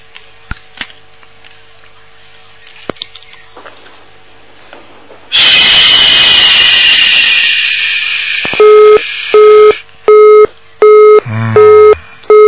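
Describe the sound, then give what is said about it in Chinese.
A telephone busy tone after a call drops: a series of evenly spaced, mid-pitched beeps. Before it comes a loud rushing hiss on the line, and a few faint clicks sound earlier. “那么电话跳掉了，那么接下去我们再没办法了。”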